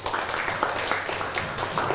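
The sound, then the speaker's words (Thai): Classroom applause for a student, a brief burst of scattered hand clapping from a group of pupils, fairly faint and lasting about two seconds with a few soft voices mixed in. “เก่งมากปรบมือให้เพื่อน”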